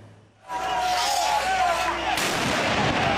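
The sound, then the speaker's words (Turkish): Fireworks and explosions during a street clash between police and anti-corruption protesters outside the prime minister's building in Tirana, Albania: a sudden loud bang opens a sustained roar of noise, with another burst near the end and crowd babble throughout. “Havai fişekler, molotof kokteylleri ve göz yaşartıcı gaz.”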